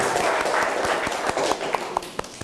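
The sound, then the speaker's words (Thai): Students in a classroom clapping to encourage a classmate. A dense patter of hands thins out toward the end into a few scattered, separate claps. “ทุกคนปรบมือให้กำลังใจเพื่อนหน่อยเลย”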